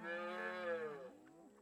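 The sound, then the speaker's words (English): A baby cow moos once on a farm, a single drawn-out, fairly faint bovine call with rich harmonics that bends lower and tails off toward the end, heard alone. “Look, there's a baby cow, said Jane.”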